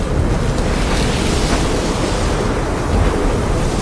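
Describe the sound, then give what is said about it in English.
Water rushing over the side of a sailboat and running across its floor, a steady, loud, unbroken wash of noise mixed with wind. “Water pours over the side of the sailboat, running across the floor.”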